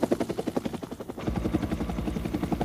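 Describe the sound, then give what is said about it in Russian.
A helicopter flying in the sky gives a rapid, rhythmic thudding of rotor blades, fairly faint, growing heavier and deeper partway through and continuing steadily. “В небе летит вертолет.”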